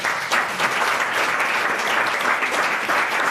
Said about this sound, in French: On peut applaudir toutes ces belles définitions.